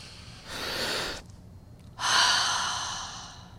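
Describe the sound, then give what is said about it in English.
A deep breath drawn in through the nose, then a longer, louder exhale pushed out through the mouth, taken during a guided breathing exercise. Two separate breath sounds with a short quiet gap between them, and no talking. “Let's take a deep breath through the nostrils, accelerate, and then exhale through the mouth on three.”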